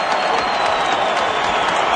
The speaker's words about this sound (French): Une ovation monstre, les gens sont debout mesdames et messieurs.